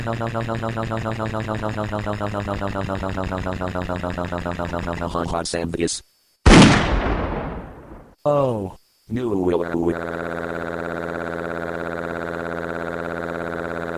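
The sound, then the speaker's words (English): A gunshot fired at an intruder on school grounds bursts out once, loud and sharp, then decays. Buzzing, electronic, siren-like tones come before and after it. “You are intruding on school grounds, therefore, you will be shot.”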